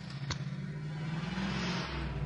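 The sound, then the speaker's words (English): Road traffic on the Brooklyn-Queens Expressway comes through a window as a faint, continuous low rumble that swells slightly toward the end, with no talk. “By the way, traffic on the BQE is picking up. You can hear it right behind me.”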